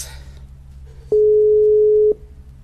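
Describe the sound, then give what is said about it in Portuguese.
Ringback tone of an outgoing phone call that goes unanswered: one steady, low-pitched electronic tone lasting about a second, rising out of a low hum and stopping abruptly. “Não vai atender. Ai, ai, ai, ai, ai, ai, ai. Ô, povo de Deus, atende, atende. Vamos ver quantas chamadas.”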